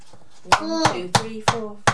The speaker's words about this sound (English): We'll tap it, but we've also got to write eggs on our shopping list because there's only one egg left. We don't need the sieve yet, Thomas. Let's just tap the egg.